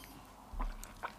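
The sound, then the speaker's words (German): A single sip of a drink, a faint, soft gulping sound followed by a small wet click. “Sekunde, ich nehme noch einen Schluck.”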